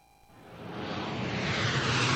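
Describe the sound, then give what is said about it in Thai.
Airplane taking off at Suvarnabhumi airport, a broad rushing roar that swells steadily louder over about two seconds. “การทะยานขึ้นคือพลังที่ขับเคลื่อนประเทศสู่เวทีโลกทุกการลงจอดคือการต้อนรับผู้คนจากทั่วโลกสู่ประเทศไทย”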